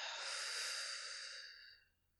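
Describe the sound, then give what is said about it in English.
A single deep breath in during a guided eyes-closed exercise: a long, airy rush of inhaled air that holds steady and then fades out after about two seconds. “Deep breath in.”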